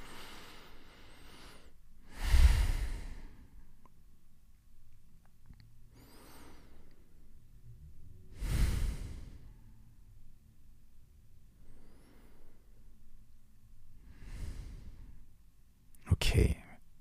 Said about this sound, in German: Und jetzt einfach nur um anzukommen, nehmen wir, wie so oft, drei tiefe Atemzüge gemeinsam.